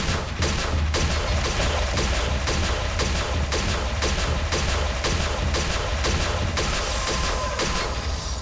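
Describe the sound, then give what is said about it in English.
Rapid video-game gunfire, a long run of repeated shots fired at a regular, quick pace over a dense, loud wash of explosions and game noise. “He was strong. Whoa. That took 12 shots to kill.”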